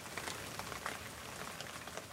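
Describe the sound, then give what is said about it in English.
Rain falls in a soft, continuous patter, a faint and even hiss of drops with no voices or other sounds over it. “It's the 10th day of quarantine and it's raining today.”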